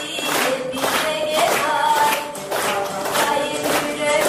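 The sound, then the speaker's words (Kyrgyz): A hall audience claps in a steady beat along to a girl's quavering song. The even rhythmic claps sit over the sustained melody throughout. “Аны залдагы көрүүчүлөр ушинтип кол чаап коштоп турушту.”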